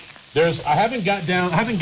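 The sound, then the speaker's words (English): Lean burgers sizzling while cooking, a steady bright hiss running throughout beneath a voice that talks over it. “the smoke is going to get pretty heavy in here with burgers. Okay. Well, I'm cooking, so someone else can do that.”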